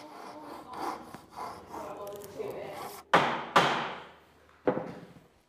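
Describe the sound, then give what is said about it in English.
A Japanese pull saw cuts through wood in steady rasping strokes, followed by a few sharp wooden knocks. “It basically cuts on the pull stroke as opposed to the push, which means you get tension in the blade, which equals a dead straight cut.”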